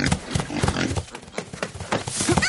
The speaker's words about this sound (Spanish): El jabalí está cerca. Un joven deja un cesto y corre. El jabalí corre.